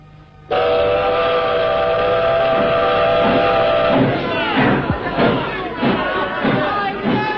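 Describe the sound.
A departing train sounds one long, steady, loud whistle, then breaks into many evenly spaced puffs and clanks as it pulls away.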